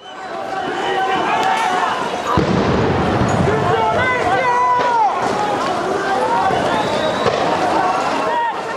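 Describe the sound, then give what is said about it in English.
Protesters in Colombia run from police during anti-government demonstrations: many overlapping shouting voices and hurried footsteps churn loudly and steadily throughout, with a sudden burst of rough, noisy commotion a couple of seconds in. “This is the sound of protesters in Colombia running away from police as demonstrations continue against the government.”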